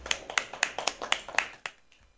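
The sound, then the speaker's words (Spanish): Faint applause from a small group, crisp hand claps landing in a quick regular rhythm that thins out and stops near the end. “un aplauso para vosotros mismos.”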